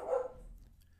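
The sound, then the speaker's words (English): A single short dog bark sounds faintly, then fades out into quiet. “Apologies for the dog.”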